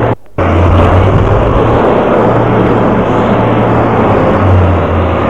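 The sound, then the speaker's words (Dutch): A container truck drives slowly into a street to clear barricades. Its heavy engine makes a loud, continuous low rumble with a steady hum underneath, broken only by a brief dropout at the very start. “En ik zie inderdaad al een containerwagen de Vondelstraat in rijden.”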